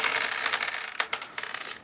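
Eight dice rolled on a table during a tabletop role-playing game, a quick, faint clattering rattle of many small clicks that tapers off.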